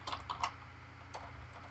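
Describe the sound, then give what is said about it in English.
Keyboard typing: a few soft, quick key clicks in short bursts, faint over a low steady hum. “What are you doing? You're just typing away? Typing away without us? Yep, typing away.”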